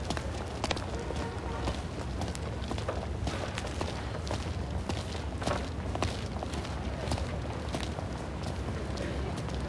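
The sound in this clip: Footsteps walk down a city street, with many steady steps over a constant, loud, noisy background.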